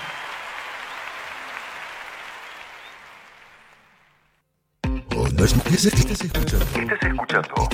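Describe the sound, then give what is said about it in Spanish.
Applause for a philharmonic orchestra. The broad wash of clapping gradually fades away over about four seconds into a brief silence, and then loud talk starts abruptly. “fuerte el aplauso”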